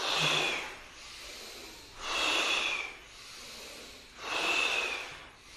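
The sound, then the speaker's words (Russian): Forceful breaths from a kriya candle-blowing breathing exercise: three strong, hissing, rushing breaths come at an even pace, each loud, with softer airflow between them and no talk. “Задувание свечи, вдох. Мощнее вдох. Ускорились.”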